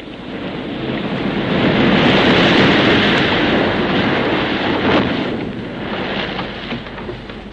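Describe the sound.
A storm roars on a stormy night in a dense, continuous rush of wind-driven noise with a surf-like texture, loud and unbroken, swelling through the middle and easing slightly toward the end, with no voices.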